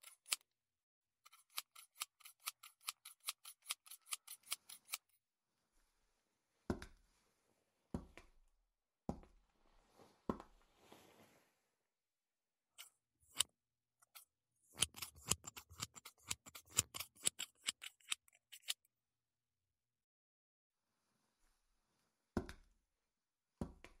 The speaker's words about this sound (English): I'm going to start to cut your hair now. Like this.